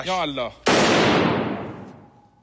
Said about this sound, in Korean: 이 과정에서 앵커는 아랍에미리트 국기를 향해 소총을 발사하는 장면을 연출했습니다.